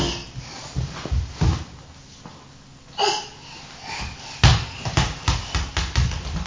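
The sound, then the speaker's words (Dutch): A ball bounces again and again, landing in many short, dull thuds with an irregular rhythm. The impacts come faster and closer together toward the end. “Boom, zegt de bal.”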